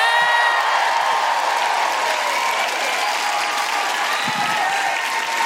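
An audience applauds and cheers a comedian's entrance onto the stage: dense, steady clapping with whoops mixed in, loud and continuous for the whole clip.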